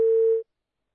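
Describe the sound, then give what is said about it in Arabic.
A telephone tone after a call disconnects: a single short beep at a steady mid pitch, lasting under half a second before cutting off to silence. “معلش انفصل اتصال”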